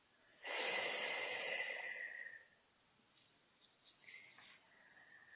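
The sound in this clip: A deep breath during a guided relaxation exercise: one loud, rushing breath lasting about two seconds, followed by fainter, softer breathy sounds.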